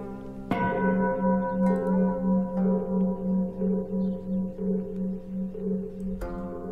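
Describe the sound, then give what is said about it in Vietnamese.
Temple bell struck with a bright ringing tone that decays, over a steady, rapid rhythm of hollow wooden fish knocks; a second clear bell strike rings out near the end. “Bất giác cô nghe có tiếng ai gọi, lẫn trong cái tiếng chuông mõ vẫn cứ vang lên như thế.”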